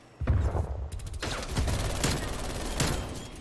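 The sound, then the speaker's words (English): A MAC-10 submachine gun fires in a video game shootout, loud sharp shots and a fast rattling burst spread over about three seconds. “It's a good thing that that little small MAC-10's got a 75 round clip in it.”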